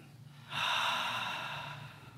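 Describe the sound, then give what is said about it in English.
A person takes one long, deep, audible breath, a soft airy rush that swells quickly and then fades slowly over a low background hum, with no talk. “Take a breath here. Release. Ah. Take another breath.”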